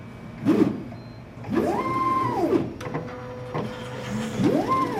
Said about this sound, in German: Leonie Cowling steht vor einer weißen Maschine mit zwei langen Greifarmen. Über ein Display gibt sie letzte Anweisungen. Dann schaut sie auf und erklärt. Das ist jetzt unser Pipettierroboter,